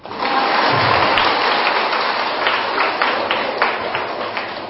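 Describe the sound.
Audience clapping at a Vietnamese Buddhist teaching class, a burst of dense applause that starts abruptly, holds steady for a while, then gradually thins and fades.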